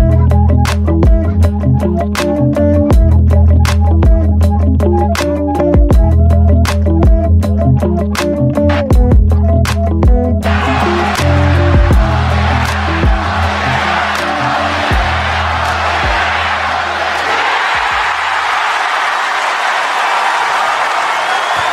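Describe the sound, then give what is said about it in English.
Wrestling crowd pop at SmackDown as Sami and KO embrace: loud music with a steady beat plays for about ten seconds before a roaring wave of cheers and applause takes over and swells. “Okay, what you're hearing is probably the biggest pop of the week. I mean, this is the Sami KO finally embracing at the end of SmackDown”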